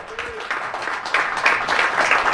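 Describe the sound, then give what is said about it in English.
Audience applause for a Christmas-themed musical performer, starting moderately and swelling louder after about a second, then continuing as steady clapping with no talk over it. “All right, well, how about a round of applause for Santa Bach?”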